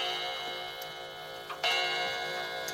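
Regular ticking of a clock with a clock case, a sound effect in a radio play of a fairy tale, steady and faint with no voices.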